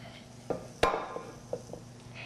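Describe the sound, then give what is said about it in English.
A plate is set down on a kitchen counter after clutter is cleared aside during cooking. One sharp, bright clack stands out among a few lighter clinks and knocks of dishes and utensils being shifted. “Let's move some of this stuff out of the way. Let's bring our plate in.”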